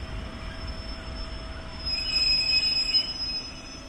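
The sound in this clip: A passenger train runs at night, heard from inside a compartment. A low, steady rumble carries a thin, high wheel squeal over it, and the squeal grows louder partway through.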